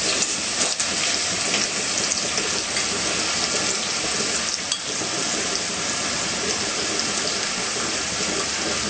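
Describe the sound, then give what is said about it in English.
Ingredients sauteing in a pan give a loud, continuous sizzle, a dense crackling hiss that holds steady throughout with no talking. “So we're gonna let it saute in there.”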